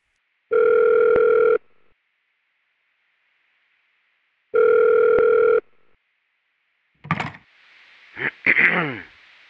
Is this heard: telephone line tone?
yes